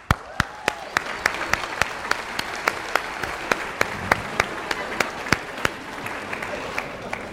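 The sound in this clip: Clapping as an audience welcomes a performer to the stage for an acted-out story. Distinct sharp hand claps land at a fairly steady pace for several seconds over a light bed of softer clapping.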